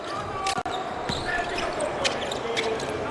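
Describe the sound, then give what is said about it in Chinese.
A basketball dribbled on the court during a game, with a few sharp bounces standing out against a busy background where voices talk. “冯奥带球，”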